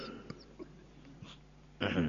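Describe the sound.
A single short, rough cough bursts out near the end, loud against the faint, scattered background sounds before it.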